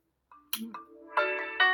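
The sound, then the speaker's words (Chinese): Short electronic ringtone signals an incoming phone call, bright tonal chimes starting after a moment of silence and repeating in a few clear bursts, with nothing else heard. “哎，我等一会儿啊，接个电话。”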